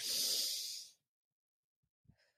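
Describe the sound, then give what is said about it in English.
A deep breath: one long, breathy rush of air lasting about a second, followed by silence and a couple of faint, brief sounds. “Let's all take a collective deep breath together.”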